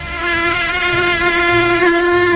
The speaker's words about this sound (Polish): No ale przy okazji jest dzień komara.